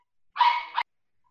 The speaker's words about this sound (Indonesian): Wah, anjingnya siapa tuh?